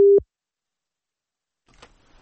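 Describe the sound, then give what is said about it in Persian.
A cut-off telephone call gives a single short, loud, low beep, followed by silence and then a faint murmur. “متاسفانه تماس ما با خانم سادات ظاهراً قطع شد”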